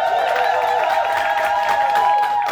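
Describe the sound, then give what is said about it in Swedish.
A large audience applauds and cheers at a gala. The dense clapping and crowd noise stay loud and steady from start to finish. “och framför oss, vi har en stor publik här. Vi är faktiskt på gala.”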